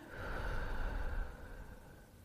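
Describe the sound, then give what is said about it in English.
A slow, deep exhale after a held breath, one long breathy rush of air that stays fairly even and then gradually fades away. “Let's take a deep breath in. Hold it. And release.”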